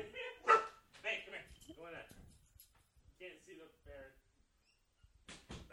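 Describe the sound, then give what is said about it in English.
A dog barks at a ferret outside, a few sharp barks and yips in short bursts mixed with people talking. “is how your dog's reacting to a squirrel right now.”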